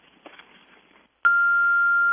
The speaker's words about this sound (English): To send a fax, start now. To leave a message, wait for the beep.